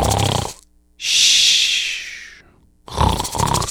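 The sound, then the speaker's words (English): A voice imitates a sleeping bear snoring: one long, breathy, rasping snore, loud and steady, then fading. Talk comes just before and right after it. “And then the bear is snoring. So it's going,”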